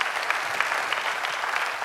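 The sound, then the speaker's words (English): Brief audience applause rises from a church audience during a sermon. The clapping is a short, dense burst of moderate loudness with no speech over it. “Let's applaud the generosity of God.”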